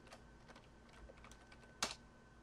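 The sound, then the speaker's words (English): Faint keystrokes on a computer keyboard as a password is typed to log in as administrator, a few soft clicks followed by one sharper key press near the end. “And we'll log in as administrator and type the password.”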